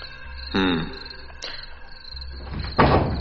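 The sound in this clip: A door is pushed shut. A few separate clunks and bumps include a sharp click in between, and the last knock is the loudest.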